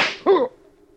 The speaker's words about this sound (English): Craig, I, I didn't mean to shoot you. It was an accident in the struggle for the gun.